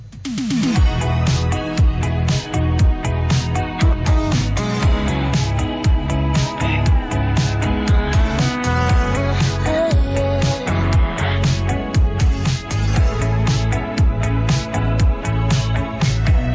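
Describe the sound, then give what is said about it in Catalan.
An 80s-flavoured Italo-disco pop duet plays with bright, vibrant synthesizers over a fast, driving dance beat, loud and steady from start to finish. “És un tema pop italo-disc amb un so clar dels 80, caracteritzat per sintetitzadors vibrants i un ritme accelerat i encomanadís, i un duel vocal d'alta intensitat.”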